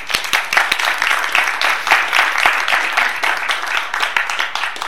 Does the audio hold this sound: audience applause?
yes